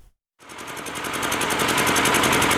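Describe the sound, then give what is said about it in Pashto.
An old electricity generator runs loudly in a village bazaar in Khost province. After a brief silence it starts up into a harsh, continuous engine roar with a rapid, regular rattling pulse that holds steady and loud to the end. “دا د صبرای ولسوالۍ اړوند یعقوبیو بازار کې د برېښنا یو پخوانی جنراتور دی چې د لوړ غږ، تیلو لوړ مصرف او تریخ لوګي په پرتله د برېښنا تولید په نشت حساب دی”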